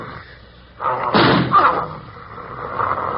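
A gunshot sound effect in a radio drama: a low background murmur swells into a loud, rough blast near the middle, then trails off into a lingering rumble.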